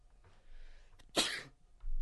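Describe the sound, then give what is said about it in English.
A man sneezes once, a sudden sharp, breathy burst after a quieter noisy intake, then fades into soft background noise. “uh-oh, another one coming. He's sneezing, by the way.”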